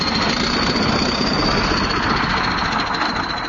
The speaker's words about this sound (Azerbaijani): Yük maşınlarından boşaldılan zibillərdən əmələ gəlmiş təpəcikləri traktorlar əzib hamarlayır.